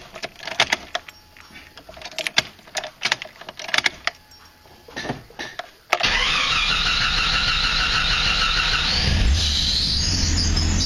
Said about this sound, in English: turn off and fire back up for you guys. Must be out of gas.